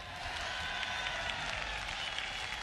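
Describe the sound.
Dense, steady applause from a live audience welcoming the bass player on stage at a Jimi Hendrix concert, a continuous wash of many clapping hands with no pauses.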